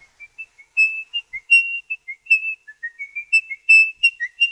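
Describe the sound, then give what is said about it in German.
Nervous, imperfect whistling of the opening of a classical melody: many short, high, breathy notes that stop and restart unevenly, whistled alone with no voices. “Sein häufiges Pfeifen. Nervös, wenig perfekt, immer wieder abgebrochen. Das ist der Anfang der Komposition in der Halle des Bergkönigs von Edvard Grieg”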